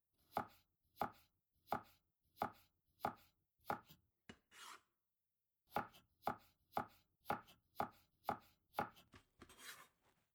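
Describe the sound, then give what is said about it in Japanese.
Knife chopping an onion into wedges: many crisp, evenly spaced chops in two steady runs separated by a short pause, with no voices. “玉ねぎをくし形に切ってと。”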